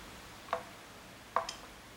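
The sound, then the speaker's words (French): Two short, crisp snips as cutters go through a black wire leading to a selector switch while an old potentiometer is removed; the clicks are a little under a second apart, with near silence around them. “Donc là, j'ai coupé donc, le fil noir ici qui va...”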